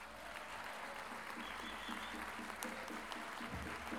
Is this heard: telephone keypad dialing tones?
no

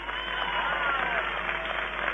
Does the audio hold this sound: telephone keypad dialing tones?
no

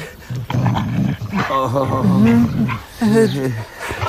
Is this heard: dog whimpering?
yes

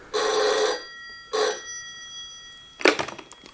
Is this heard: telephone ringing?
yes

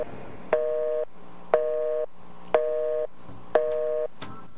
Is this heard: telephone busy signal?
yes

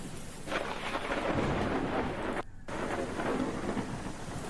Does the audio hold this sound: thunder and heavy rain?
yes

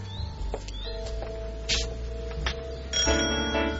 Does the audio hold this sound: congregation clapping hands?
no

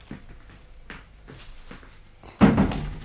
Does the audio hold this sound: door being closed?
yes

